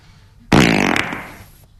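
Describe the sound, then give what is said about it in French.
A single loud fart, a sputtering, buzzy blast lasting about a second that fades toward the end, heard alone with no talk. “Je peux péter ? Ouais, vas-y.”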